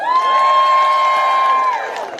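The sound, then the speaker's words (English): Crowd cheering and applauding at a political event as a former U.S. Representative from Ohio is introduced. A loud, continuous roar holds for about two seconds, then tapers slightly at the end. “Give it up for Tim!”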